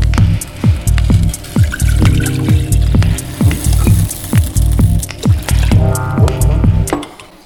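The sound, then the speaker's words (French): Water poured into a pot to be heated on an induction hob, a run of splashy, gurgling pours and quick liquid plops that keeps going steadily and then stops abruptly just before the end. “Donc là, on met l'eau qu'on va chauffer avec l'induction en 2 secondes.”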